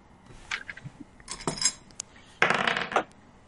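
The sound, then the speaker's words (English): Dice rolling on a table during a tabletop role-playing game, making a few bright clattering bursts of rattle and clink, with the last burst longer and louder than the earlier ones. “I gotta stop rolling that dice.”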